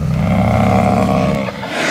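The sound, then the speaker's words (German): A bear roaring: a loud, deep, rough roar held for about one and a half seconds, then dipping briefly before the growling rumble resumes to the end. “Stell dir vor, du bist in Kanada und siehst Bären.”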